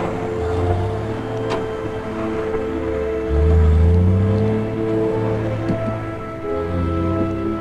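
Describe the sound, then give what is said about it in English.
A semi truck pulling a trailer rumbles onto a highway and picks up speed, its loud, deep engine drone holding steady before climbing in pitch midway as it accelerates, then settling into a sustained roar. “Jeff walks alongside the semi as it pulls onto the highway and picks up speed. The cab passes Jeff by, followed by the hitch and trailer.”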